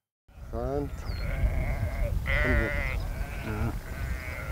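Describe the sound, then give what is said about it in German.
Sheep bleating in a flock of about 630 moving through heathland at Morsum Cliff on Sylt: several wavering, overlapping bleats of varied pitch rise over a steady, busy background murmur from the herd. “Die 630 Schafe sorgen hier für eine ganz natürliche Landschaftspflege.”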